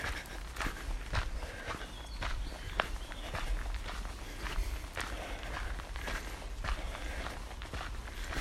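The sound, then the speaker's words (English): Footsteps on a brisk walk, quick and evenly spaced, with many faint crisp strikes in a steady fast rhythm. “Bit of a brisk walk today.”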